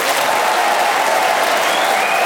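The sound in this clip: A studio audience at a panel game show applauds as four panellists are welcomed: loud, dense, unbroken applause holds at a steady level throughout.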